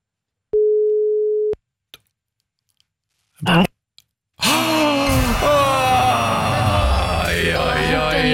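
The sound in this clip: Telephone ringing tone: one steady, mid-pitched burst lasting about a second, followed by a few faint clicks. Then comes a loud, dense stretch of noisy sound.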